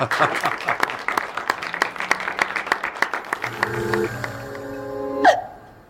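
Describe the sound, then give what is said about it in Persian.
An audience claps in a loose, irregular patter of many sharp hand claps for about three seconds. Sustained harmonic tones then take over, and a brief loud burst comes before the sound fades out. “دست بزنید حالا.”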